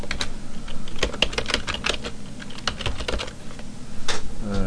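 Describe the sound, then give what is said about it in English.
Rapid typing on a computer keyboard while logging into an email account: many quick, irregular key clicks in dense bursts with brief gaps, steady and fairly loud throughout, with no talking. “Yeah, I can't type.”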